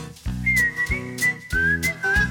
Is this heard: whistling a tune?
yes